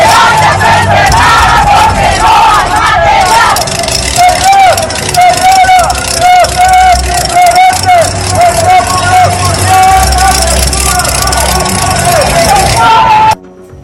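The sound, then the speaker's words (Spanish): Crowd of social-security health workers chanting at a street protest in Xalapa, Veracruz: loud massed voices repeating rhythmic phrases over a low traffic rumble, stopping abruptly at the end. “el IMSS Delegación Veracruz Norte se suma a esta serie de protestas a nivel nacional y así fue como se escuchó en las calles de Jalapa.”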